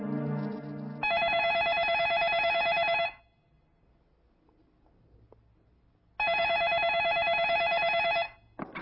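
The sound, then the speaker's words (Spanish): A telephone rings in an apartment, giving two long, bright electronic rings separated by a pause of about three seconds, with no voices heard. “yo estaba en el apartamento de mi enamorada cuando el teléfono sonó”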